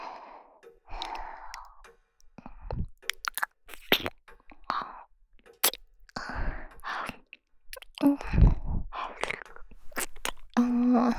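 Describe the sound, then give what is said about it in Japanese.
Chewing and biting on food, with irregular crunchy bursts and soft breathy sighs between them. “みかん？みかんはもういいよ。 今はこっちを食べたい。”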